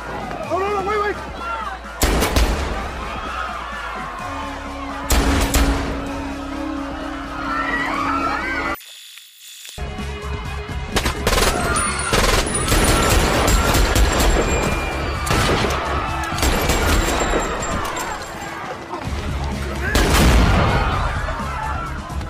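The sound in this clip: Gunfire from a film shootout: many loud, booming shots scattered over a dense, noisy bed of action sound, broken by a sudden, brief near-silence around the middle.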